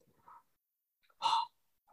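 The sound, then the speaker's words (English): A single breath drawn in through the open mouth during a breathing exercise: a short, airy rush of about a quarter second, with a few fainter breath sounds around it. “Just sit upright and breathe consciously to your mouth. Open the mouth and breathe through your mouth in.”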